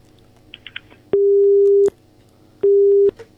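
A telephone busy tone sounds after a call to a radio call-in show is cut off: two loud, steady mid-pitched beeps with a pause between them, over faint line hiss and a few small clicks.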